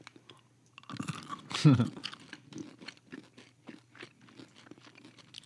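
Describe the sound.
Chewing on caramel M&M's chocolate candies with the mouth close to a microphone: a loud crunching bite followed by many softer, rhythmic wet chews.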